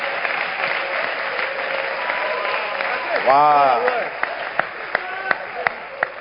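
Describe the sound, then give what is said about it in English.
A church audience claps their hands in steady rhythmic beats alongside singing voices and a loud, sweeping sung cry. “are you clapping your hands for Jesus”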